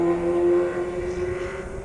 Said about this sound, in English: That was a motorcycle. Very loud motorcycle.